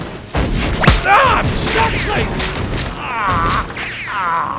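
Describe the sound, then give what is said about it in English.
A musket volley crackles amid loud shouting voices, with a sharp report near the start and rough, continuous rattling beneath the yells. “Shoot 'em, boys.”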